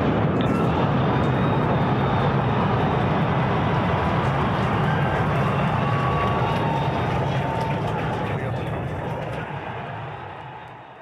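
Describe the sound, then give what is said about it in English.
Roar of a SpaceX Starship rocket launch, a 37-story rocket with 33 engines, as a dense continuous rumbling roar that holds steady for several seconds and then slowly fades. “It lasted all of 4 minutes. Again, the Starship rocket was the largest in human history launch. It's 37 stories, 33 engines.”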